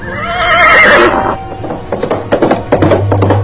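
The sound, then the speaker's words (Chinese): A horse's hooves beat on a gravel-paved road, starting with a loud, drawn-out whinny and then a run of uneven clip-clops with thuds. “马蹄声渐渐变响，提醒我们已经踏上沙石修砌的道路。”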